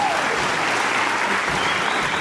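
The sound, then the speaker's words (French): Applause for a performer after a feat of coordinated movement: dense, steady clapping from many hands, loud and sustained for the whole stretch without a break. “Miss Liégeois se surpassa pour coordonner ses mouvements et fut applaudi.”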